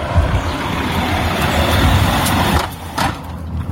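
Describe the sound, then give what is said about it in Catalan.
Car passing in the street, a loud, annoying noise: a sustained, broad engine and road roar that holds steady for a few seconds and then fades down. “Ajunte un àudio per a que es veja lo molest que és cada vegada que passa un cotxe.”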